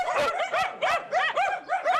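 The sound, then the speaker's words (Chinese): Many dogs barking together in a rapid run of high, yelping barks that overlap and come in quick succession. The barks are loud and carry whimpering, yippy tones, with no talk over them. “有狗啊。这么多狗，有人吗？”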